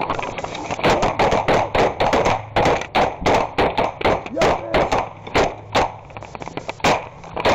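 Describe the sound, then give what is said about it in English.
Gunfire sprays from a dilapidated barn in many sharp, loud cracks fired in rapid, irregular bursts, with only short gaps between the volleys. “Gunfire sprays somewhere from a dilapidated building nearby, a barn.”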